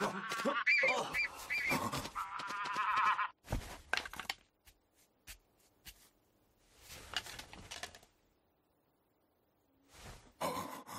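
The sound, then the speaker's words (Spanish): A bird flying into a room, with harsh, honk-like calls in the first few seconds, then several short bursts separated by quiet gaps. “¿Qué es esto? ¿Un pájaro? Oh, pero, ¿por qué ha entrado? Lleva algo en el pico.”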